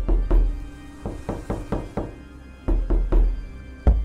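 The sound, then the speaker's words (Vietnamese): Knocking on the wooden boards of a coffin: a long series of dull, hollow thuds in irregular clusters, with brief pauses between groups of knocks. “Đồng thời bên trong quan tài vang lên tiếng lục cục như có ai đó đang gõ vào ván.”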